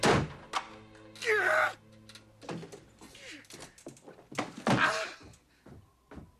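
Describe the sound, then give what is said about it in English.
A sheet of paper slammed down onto someone's lap gives a few dull thumps and thuds, scattered among short vocal sounds and groans. “She slams the paper down onto his lap.”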